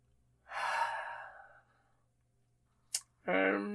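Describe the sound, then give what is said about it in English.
A sharp intake of breath from a speaker, a long airy gasp that fades out gradually, followed by a short click and then the onset of a voiced sound. “I don't like that sharp intake of breath that you do every time.”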